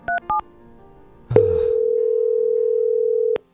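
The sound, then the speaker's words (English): Two short touch-tone beeps sound as a phone number is dialed, then after a pause a click leads into a long, loud, steady single tone lasting about two seconds before it cuts off abruptly. “Hand me the number. Okay, here we go. You ready? Okay, I will dial this.”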